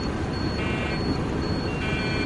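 An aircraft cockpit alarm in a film scene beeps twice, each a steady tonal beep lasting under half a second, over a loud, constant rumbling roar.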